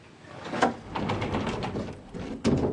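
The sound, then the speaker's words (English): A sliding closet door in a bedroom is pushed open, giving a soft rolling rumble marked by a sharper knock near the start and another near the end. It is fairly quiet, with no voices. “She looks around, then slides open the closet door.”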